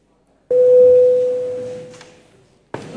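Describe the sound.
Parliament voting signal sounding as a single steady electronic tone that starts abruptly and loud, holds for about a second and a half, then slowly fades out.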